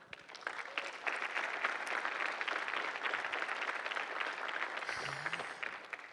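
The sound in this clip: An audience applauds to welcome someone at a talk, a dense, steady burst of clapping that holds evenly for about six seconds with no voices over it.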